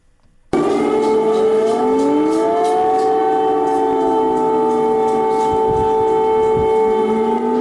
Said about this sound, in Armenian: Ուկրաինայի մայրաքաղաք Կիևի բնակիչներին այսօր արթնացրել է օթային տագնապի մասին ահազանգող շչակը։